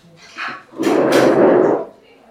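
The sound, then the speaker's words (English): A chair creaks, first with a short creak and then with a louder, longer groaning creak that lasts about a second before fading. “That's not me. That was the chair.”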